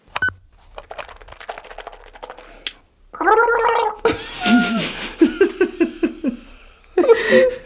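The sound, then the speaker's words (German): Someone gargles while brushing their teeth, making a wet, bubbling gurgle that breaks into a quick rhythmic series of throaty pulses before trailing off. “ich war ja gerade beim Zähneputzen, nicht?”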